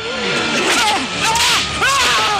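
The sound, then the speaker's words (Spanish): Whip lashes as a guard strikes an old slave: a few sharp swishing cracks cut through a dense, busy background. “Un guardia golpea a un esclavo anciano.”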